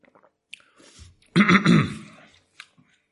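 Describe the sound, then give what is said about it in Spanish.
A sip and swallow of water: a short, wet slurping gulp near the middle between faint mouth noises, with no talk. “Un traguito de agua.”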